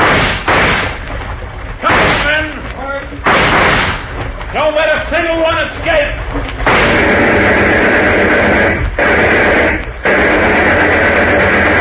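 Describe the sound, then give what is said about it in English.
Gunfire erupts in a radio-drama shootout. Shouting voices are followed by dense, sustained bursts of shots that roar loudly and almost continuously, broken only by a couple of brief pauses. “The rest of you better start shooting with me.”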